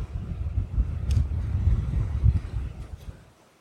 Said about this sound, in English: You can probably hear the wind. Could be a rough night here if the wind doesn't calm down.